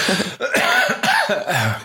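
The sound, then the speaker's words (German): A short human cough mixed with throat clearing: a few rough, voiced bursts in quick succession, fairly loud and with no speech around them. “Kurzer Husten.”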